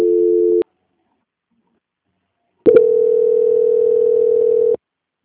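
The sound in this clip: Telephone tones play while a bank call is transferred. A brief steady tone cuts off, and after a silent pause a second, longer steady tone holds for about two seconds, then stops.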